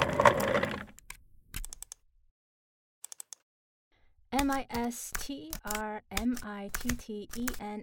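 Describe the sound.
Key clicks on a work laptop keyboard as a password is typed, a few sparse taps after a pause, followed by a voice talking.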